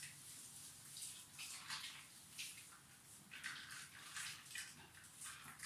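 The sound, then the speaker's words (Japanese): Soft splashing and swishing of bathwater as a person washes their body in a bath, scrubbing carefully behind the knees and massaging the legs, comes as a faint, steady run of watery bursts with no talk. “これで合ってるのかな。体を洗う音って、”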